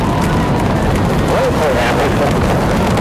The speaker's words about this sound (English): Boost ignition and liftoff of the Space Shuttle Discovery, returning to the space station, paving the way for future missions beyond.